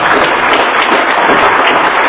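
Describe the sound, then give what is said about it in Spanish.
Church audience applauding in praise, a dense, steady wash of many hands clapping that holds evenly from start to finish with no breaks and no single voice standing out. “le damos un fuerte aplauso a Jesús”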